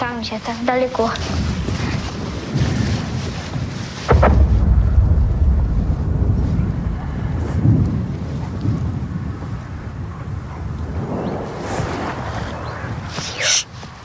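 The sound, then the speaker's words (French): Distant gunfire from the opposite riverbank comes as a dull, heavy boom that breaks through a steady windy rumble, with another sharper burst near the end. “Écoute. Ils ont encore tiré.”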